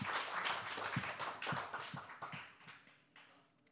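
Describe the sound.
A woman claps her hands alone: a few sharp, separate claps at an uneven pace over a steady background hiss, with no voices.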